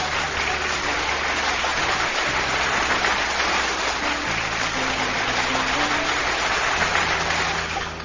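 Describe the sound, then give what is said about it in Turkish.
Sustained applause after a poetry reading: a dense, steady crackle of many clapping hands that holds at an even, fairly loud level for the whole stretch, with no gaps or build. “Kocaman bir alkış gelsin Akgün hocam”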